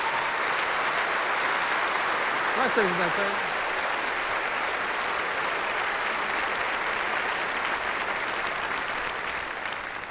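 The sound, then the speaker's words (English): An audience applauds to welcome a pastor with steady, dense clapping that fills the whole stretch, holding a constant level and easing slightly at the end. A brief voice rises over the clapping early on. “Would you put your hands together and welcome this explosive pastor here”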